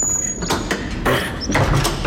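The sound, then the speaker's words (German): A door being closed: a few soft knocks and rattling clatters over a steady, low background rumble, with no voices. “Und schließen Sie bitte die Tür.”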